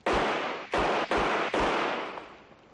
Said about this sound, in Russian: Один из них стреляет в голову мужчины постарше.